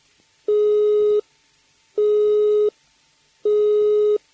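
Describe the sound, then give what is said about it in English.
A telephone engaged tone: a steady, buzzy note switched on and off at regular intervals, three bursts of about three-quarters of a second each separated by silent gaps, heard alone. “The engaged tone is a high-pitched note interrupted at regular intervals, like this.”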